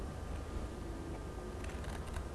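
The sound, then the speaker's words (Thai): Scissors snipping through a paper plate, faint crisp cuts that come as a few quick snaps toward the end over a soft background hiss. “ต่อไปครูหญิงจะตัดที่มุมด้านบนของจานกระดาษนะคะ”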